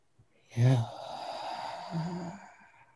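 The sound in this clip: A long breathy exhalation from someone trying to pronounce the divine name without vowels. It opens with a brief louder puff, then turns into a steady airy hiss lasting about two seconds before it fades.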